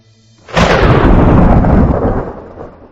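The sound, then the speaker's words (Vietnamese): Thunder from a lightning strike: a sudden, loud crack at about half a second swells into a dense, roaring rumble that slowly fades over the next two seconds, with no voices. “một tia sét từ trên trời giáng xuống, đánh Sỉ Tiêu”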